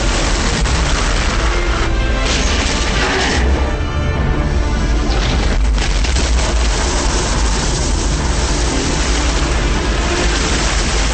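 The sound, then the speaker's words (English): A sound effect of an explosion in water: a heavy, deep roar of churning, rushing water that stays loud and dense for the whole stretch, with a few surging swells and no talking. “On the surface, the explosion of water sends streams high into the air.”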